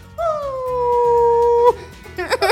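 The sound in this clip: A fox howls in one long, steady, fairly loud cry that holds its pitch and then breaks off, followed by a few short, choppy yelping sounds.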